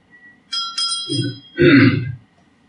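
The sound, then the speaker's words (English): A bell being fiddled with gives a few bright, ringing metallic tones close together, followed by a louder, rough burst of noise, with no talk. “Oh, that was me fiddling with the bell.”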